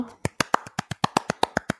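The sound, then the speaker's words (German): Rapid, evenly spaced sharp claps ring out alone, about a dozen crisp hits in quick, steady rhythm, each one brief and fairly bright. “Bitte Applaus. Danke.”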